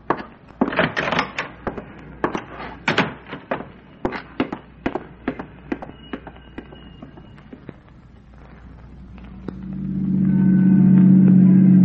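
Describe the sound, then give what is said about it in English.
A car tailing another car in a radio drama: a run of sharp knocks and clatters, then a steady mid-pitched engine drone that swells in and holds toward the end. “Watch it, Harrington. He's slowing down. Yeah. He's going to take that next corner. Stay at least a block behind him. Right. Hang on for the turn.”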